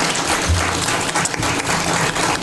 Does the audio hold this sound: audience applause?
yes